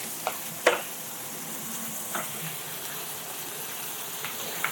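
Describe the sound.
Salted vegetables sizzle in a pan layered over bacon and chicken: a steady, moderate frying hiss broken by a few brief clatters as the pan is stirred.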